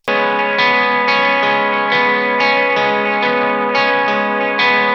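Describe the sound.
A harsh, distorted guitar tone plays dense, buzzy chords. They are struck again in a steady rhythm about every half second and held between strikes, loud and alone with no voices.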